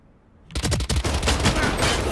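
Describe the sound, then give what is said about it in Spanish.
Rapid gunfire in a video game, with shots striking a wall: a sudden, loud, dense stream of sharp cracks erupts after a short quiet lead-in and continues without a break. “Ah, con la mierda disparando en la pared.”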